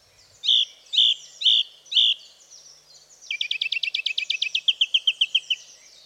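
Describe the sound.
A song thrush sings loudly, first repeating one clear, high phrase four times, then a rapid series of sharp, high notes repeated many times, with nothing else heard.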